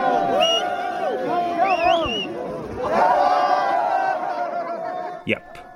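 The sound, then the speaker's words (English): Local crowd at a street boxing match yelling and cheering, a loud swell of shouts and whoops from many voices that rises again midway. “those locals are cheering because the gringo has been knocked to the ground”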